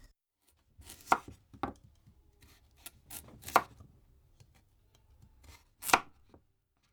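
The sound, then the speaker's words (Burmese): A kitchen knife chops peeled carrots and potatoes into thick rings on a board. A few sharp, crisp thuds stand out among softer cuts, irregularly spaced and heard alone without talk. “အခုနောက်ဆုံးမွန်လာဥနီနဲ့အာလူတွေကိုအခွန်ခွာပြီးတော့2စင်တီမီတာအထူးအကွင်းလိုက်လီးပါမယ်။”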